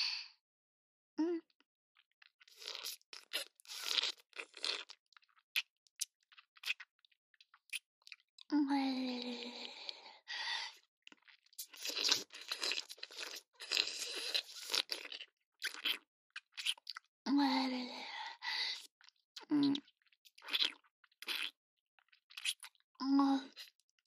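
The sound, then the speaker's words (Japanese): Wet mouth licking sounds, close and intimate, come in many quick smacking and slurping bursts with brief pauses, joined by occasional short vocal sounds. “舐めちゃった。ビクビクってして気持ちいいの？んじゃあもーっと舐めてあげる。”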